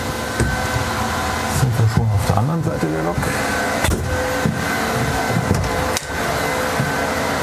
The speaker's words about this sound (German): Das ist quasi die Kühlung vom Batterieladegerät.